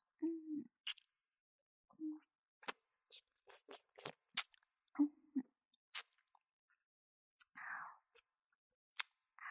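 Quiet chewing while eating: scattered crunchy bites and wet clicks at irregular intervals, with a few brief low hums between them.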